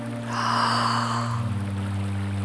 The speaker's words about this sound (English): Listen to my breath sounds. Breathe in,